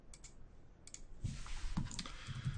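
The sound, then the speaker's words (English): A few faint computer mouse clicks on on-screen items, light ticks spaced irregularly over a soft background hiss. “you can see when I click on any of these items, you can see what was selected”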